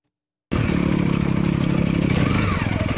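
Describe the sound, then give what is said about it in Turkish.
Off-road motorcycles climb a steep, rocky mountain trail in the Amanos Mountains, their engines a loud, continuous buzzing roar that starts abruptly and holds steady, turning slightly pulsing toward the end. “Osmaniye'de motosiklet tutkunları arazi motosikletleriyle Amanos Dağları'ndaki Keldaz Zirvesi'ne tırmandı.”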